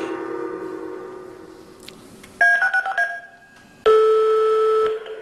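Telephone dialing tones chirp in a quick run of short electronic beeps. After a brief pause comes a longer, steady tone, clear and without speech.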